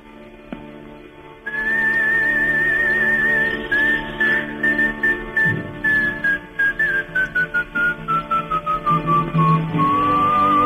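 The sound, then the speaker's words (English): Whistled melody in a played song, entering after a quiet instrumental opening: a clear, high whistle held long, then stepping slowly downward in pitch over a steady, pulsing instrumental backing. “He does a lot of whistling, doesn't he, on his songs?”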